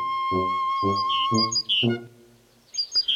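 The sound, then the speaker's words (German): A great tit sings in a forest, with bright, high chirps and whistles. Four evenly spaced, lower tonal notes sound alongside the song, followed by a short pause and more high chirps. “Die Amsel. Die Kohlmeise.”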